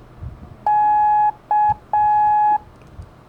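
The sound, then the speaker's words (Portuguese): Morse code letter K as three beeps: a long tone, a short tone, then another long tone, all at one steady mid-high pitch, clean and loud over a faint background. “Vão ser a letra K de quilo, da, di, da.”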